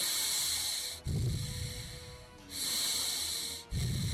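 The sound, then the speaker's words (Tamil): Deep breaths from a patient with a congested chest, a smoker, breathing at a doctor's request. Slow, hissing inhales and exhales alternate in long phases, fairly faint and with no talking. “பயப்படாதீங்க sir, கொஞ்சம் மூச்சை எடுத்து விடுங்க.”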